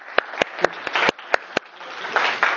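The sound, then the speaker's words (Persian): Scattered hand claps from a small audience applauding two participants: several sharp, separate claps at the start, then a brief swell of denser clapping that fades and returns near the end. “جفتشون رو تشویق بفرمایید.”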